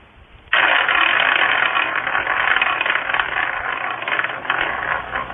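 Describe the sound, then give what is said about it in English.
A prize wheel is spun. It starts abruptly and clicks rapidly and loudly, a dense, steady ratchet-like rattle that continues for several seconds with no talk over it. “All right, let me spin the wheel.”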